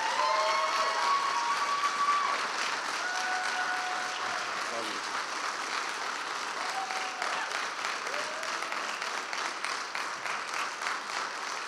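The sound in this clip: Sustained applause from a church audience welcoming a pastor to the stage, a dense and steady wash of clapping that stays even throughout, with crowd voices mixed in.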